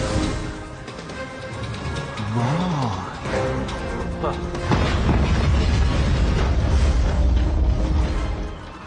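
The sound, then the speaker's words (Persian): An explosion of ammonium nitrate mixed with gasoline sets off a heavy, low boom that swells into a steady roaring rumble lasting several seconds, following a stretch of tonal sounds and voices. “چه جور آزمایشی بی؟ خب از اونه که منفجر میشه، از ترکیب نیترات آمونیوم و یه مقدار گازوی.”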